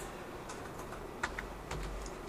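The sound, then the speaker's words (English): Faint typing on a computer keyboard, a few soft, irregular key clicks over a low steady background hiss. “And I actually managed to type all that right.”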